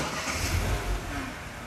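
A Mini car's engine starts up, a low rumbling growl that swells briefly in a short rev before settling into a steady, moderately loud idle.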